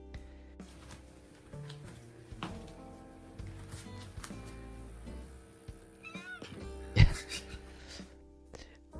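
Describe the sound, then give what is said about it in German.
Cat meows from an online cat video come in scattered plaintive calls. They mix with steady tonal background sounds, and one louder, sharper burst stands out near the end. “Problem ist, umso mehr Cat-Content ich anklicke.”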